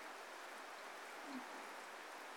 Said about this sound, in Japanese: もう秋なのに、まるで梅雨みたい。秋雨前線でしょうか。